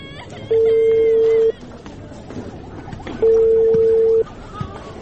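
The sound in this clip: Phone call being placed to a father to share good news: two long, steady ringing tones, each about a second, separated by a pause, over a busy background of noise.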